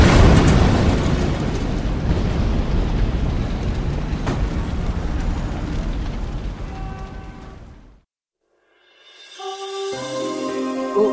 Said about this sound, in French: attention, you, une grenade! Tiens, une grenade!